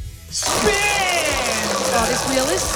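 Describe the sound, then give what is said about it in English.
A big game-show prize wheel, newly built, spins with a loud, continuous clattering rush of rapid ticks, while excited voices talk over it. “I'm going to spin the wheel. We're going to choose your category. You want a big spin or a little spin? Big spin, please.”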